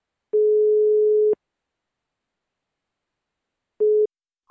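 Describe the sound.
Telephone busy tone from repeated calls that keep getting hung up: a steady low beep of about a second, a long silence, a shorter beep, then a higher tone starting right at the end.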